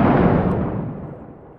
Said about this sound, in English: Oh, grenade. Oof. Took that one right to the face.